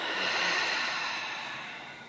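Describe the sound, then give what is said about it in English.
A deep breath during a guided yoga session, a long steady breathy rush that slowly tapers off. “Take a huge breath in and a bigger breath out.”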